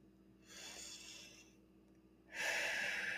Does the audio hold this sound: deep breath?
yes

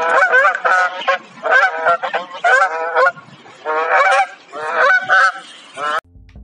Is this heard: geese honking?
yes

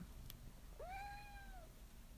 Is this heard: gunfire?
no

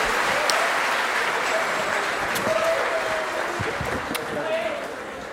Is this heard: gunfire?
no

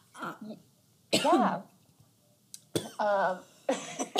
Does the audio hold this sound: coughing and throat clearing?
yes

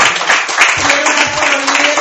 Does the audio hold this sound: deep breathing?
no

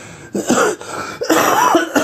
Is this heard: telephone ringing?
no

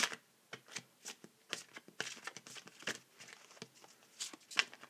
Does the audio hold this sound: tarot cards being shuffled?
yes

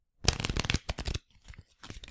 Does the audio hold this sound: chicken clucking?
no

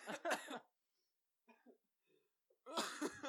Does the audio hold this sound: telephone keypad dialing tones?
no

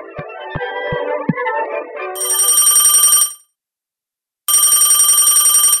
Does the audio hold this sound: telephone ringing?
yes

